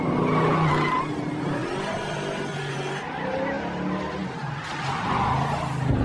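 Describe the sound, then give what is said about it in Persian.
A car drives fast in repeated tight circles around two parked trailer trucks and a small loader. Its engine roars steadily and continuously, with tire noise under it and no break in the sound. “به کامیون ها بسیار نزدیک میشه و با سرعت دورشون دایره میزنه و میچرخه و این کارو تکرار میکنه.”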